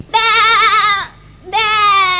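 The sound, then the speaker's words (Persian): Two loud, nasal goat bleats, the first long and wavering, the second starting after a brief pause and holding a steadier pitch. “وای باز بزکه خوشگلکه با نمکه یک کاسه شیر به خاله بده.”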